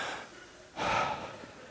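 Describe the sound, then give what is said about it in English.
An audience at a sermon draws one deep breath together, a single loud, airy rush of inhaled air lasting about half a second, with no talking. “Everyone take a deep breath. Go like this. Go.”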